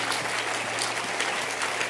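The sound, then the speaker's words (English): An audience claps hands in dense, continuous applause that stays at a steady, fairly loud level throughout, with no single claps standing out. “Keep clapping your hands.”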